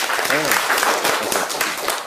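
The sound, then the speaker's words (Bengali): Audience applause for two quiz contestants who guessed a distance, a dense, steady clatter of clapping lasting about two seconds, with a voice briefly audible through it. “দুজনের জন্য হাততালি হোক।”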